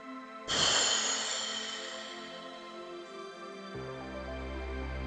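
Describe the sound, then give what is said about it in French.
A breath blown out over open, upturned palms during a guided ritual, a soft airy rush that starts abruptly and fades over about two seconds, over a quiet sustained musical drone. “placez vos 2 mains devant vous à plat, les paumes vers le haut, et soufflez le souffle dzir le dessus.”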